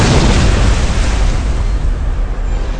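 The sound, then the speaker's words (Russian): A powerful explosion blows a huge hole at a ship's waterline, heard as a loud, continuous, deep roaring rumble with no distinct onset that eases slightly toward the end. “Несколько секунд спустя оглушительным мощным взрывом вырвало огромную дыру у ватерлинии Блу-Рей.”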